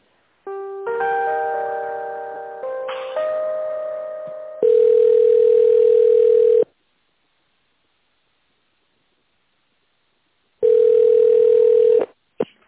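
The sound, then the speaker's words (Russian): Telephone tones sound while a call is transferred: a stepped sequence of electronic tones, then a long steady tone, a silent pause, and a second steady tone of the same pitch. “Давайте соединю вас с менеджером Виталием.”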